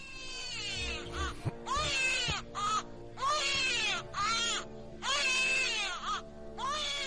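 Crying comes from inside a locked room: a series of high, wavering wails with rising and falling pitch, several longer cries broken by short gaps, fairly loud against a quiet background.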